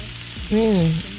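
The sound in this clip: Bacon frying in a pan makes a steady, even sizzling hiss, with a brief tonal sound rising out of it in the middle of the short clip.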